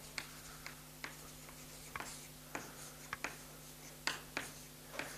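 Chalk or marker writing on a board during a lecture: many short, crisp taps and scratchy strokes in an uneven rhythm, fairly faint over a low steady hum.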